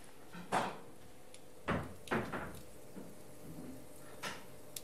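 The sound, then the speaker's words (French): A knife slicing rounds from an andouille sausage of about half a kilo, heard as a few dull, uneven thuds against the cutting surface, separated by quiet pauses. “On va pas le voir, mais donc là je suis en train de couper des tranches.”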